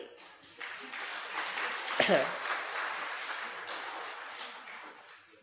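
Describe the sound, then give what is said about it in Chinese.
Audience applause during a lecture swells into a dense, steady wash of clapping with one sharper clap partway through, then slowly fades toward the end. “你们是为这个断臂鼓掌是吧？”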